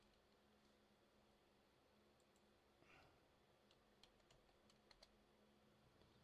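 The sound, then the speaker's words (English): Keys on a computer keyboard are tapped while a search term is typed into a website: a faint, sparse handful of light clicks over a low, steady hiss. “And so you can come up here and just type in”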